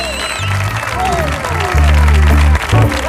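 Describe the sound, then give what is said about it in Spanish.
A studio audience applauds and cheers at a variety show taping, a dense, steady roar of clapping that holds loud throughout over sustained low tones and a few rising whoops. “Hoy tenemos un publicazo que suena así de potente. Ve cómo suena este público de hoy.”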